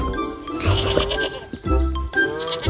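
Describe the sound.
A lamb bleats in a few wavering, mid-pitched calls, loud and clear with short gaps between them.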